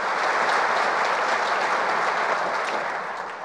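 A church audience claps to give a warm welcome to a woman about to share her story. The applause is thick and continuous, holding a strong, even level before easing slightly at the very end.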